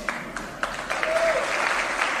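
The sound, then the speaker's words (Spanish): Audience applause breaks out after a speech at a private university in Mexico's capital: dense, steady clapping throughout, with a brief whistle cutting through the middle. “Esta noche ha dado un discurso en una universidad privada de la capital, donde se ha llevado el aplauso del público al decir esto.”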